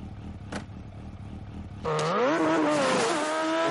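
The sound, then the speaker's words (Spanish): Motorcycle engines during a face-off in the Mission: Impossible 2 chase, as Ethan's fuel-leaking bike and his opponent's accelerate toward each other on their rear wheels. A low rumble gives way near two seconds to a loud, roaring rev whose pitch climbs and wavers. “Aceleran y se aproximan apoyados en la rueda trasera. La moto de Ethan sigue expulsando combustible.”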